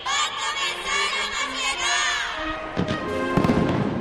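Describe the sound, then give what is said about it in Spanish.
Fireworks fired from a town hall square in a 160-kilo display: shrill whistling tones at first, then sharp crackling bangs and thuds, loud and continuous. “La pirotecnia Turís ha sido la encargada de disparar hoy desde la plaza del Ayuntamiento. Un espectáculo potente, con 160 kilos”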